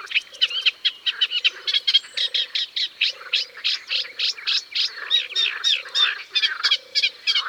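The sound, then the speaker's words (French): A reed warbler, a bird of waterside reedbeds, sings a lively, rhythmic strophe of harsh, repeated chirps. Lower churring notes are woven in, and the song runs continuously at a steady pace with no voices over it. “Cette rousserolle ne sort pratiquement jamais des roseaux. C'est là qu'elle a son nid, au-dessus de l'eau, et c'est là qu'elle se nourrit de petits insectes, d'araignées. Et voilà, sa strophe est terminée.”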